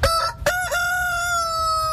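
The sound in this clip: A rooster crows loudly on a farm, giving a couple of short opening notes before one long, held, ringing call that carries to the end.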